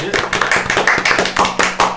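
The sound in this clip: Applause for a person being honoured at a naming ceremony: many hand claps overlap into a steady, fairly loud wash that continues throughout without a break.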